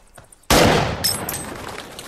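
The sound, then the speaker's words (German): A loud gunshot at a shooting range during a film scene, with targets set at 100 metres. A quiet start breaks into a sudden sharp blast, followed by a long decaying roar with faint high metallic ringing. “Und jetzt gehen wir schießen. Vamos a tirar. Gracias. Señores, 100 metros.”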